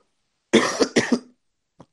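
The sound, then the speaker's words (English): Two harsh, chesty coughs from someone who may have a chest infection, loud and alone with silence around them. “looking at Jay, sorry, I don't know if it's cough or a chest infection, but either way, I'm sounding awful.”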